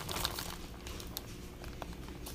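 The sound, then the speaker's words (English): A bag of brown sugar being opened, with dense, steady crinkling of packaging and a few sharper crackles. “So that's what I'm doing. Now I'm just going to open my bag.”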